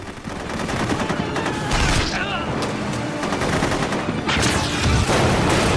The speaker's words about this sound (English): Two armored Delta jeeps roar between the buildings and pick off more of Salazar's men. Another rocket hits a fuel storage tank and explodes.